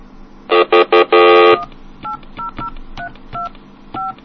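Touch-tone dialing on a telephone line: a quick run of loud keypad tones, the last held longer, then a series of quieter, evenly spaced two-note beeps.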